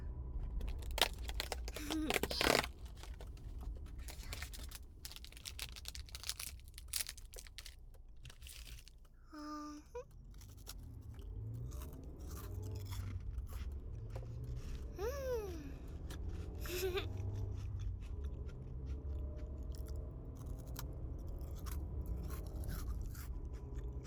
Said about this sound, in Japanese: 次はどれにしようかな。クッキーにしようっと。